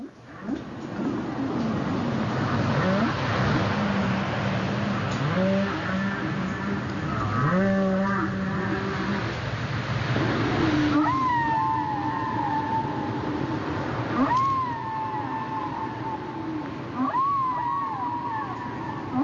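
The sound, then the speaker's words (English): Whale song: drawn-out wavering moans and several swooping calls that rise and then fall, one after another, over a steady watery background wash. “So I'd like to play, before we get to him, a little whale song to create the mood”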